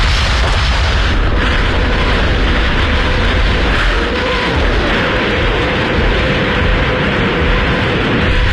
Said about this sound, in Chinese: 凌晨5点，苏军3000门加农炮和火箭炮同时对德开火。